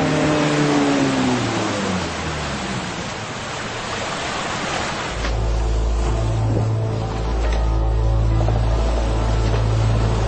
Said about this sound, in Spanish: El HMS Londres envió una lancha.